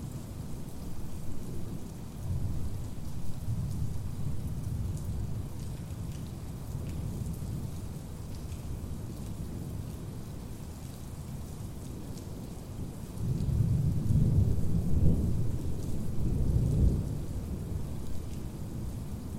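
Heavy rain pours steadily through a thunderstorm, its constant hiss broken by deep rolling thunder, with one rumble early on and a louder, longer one later.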